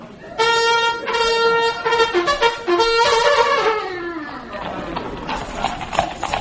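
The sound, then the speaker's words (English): Hooves clatter as a cavalry troop rides out of a fort on horseback, a busy clip-clop beneath men singing an army song. The singing drops away after about four seconds, leaving the hoofbeats. “The cavalry troop rode out of the fort singing an army song. I accompanied them on my palomino.”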